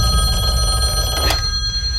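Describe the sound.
A telephone rings on an outgoing call, sounding as a continuous tonal ringing over a dense background, alone without talk.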